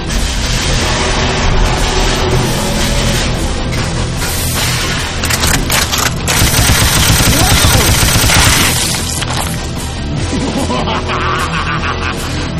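The Cheddar Shredder, a cartoon weapon, fires in a loud, relentless barrage of rapid gunfire-like bursts and booms that rattles on without a break for over twelve seconds.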